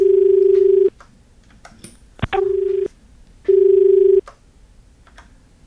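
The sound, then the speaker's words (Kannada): Telephone tones after a call cuts off: three steady, mid-pitched beeps, each under a second long and separated by short pauses, with a sharp click just before the second beep. “ಕರೆ cut ಆತು ಅನ್ನಿಸ್ತದ.”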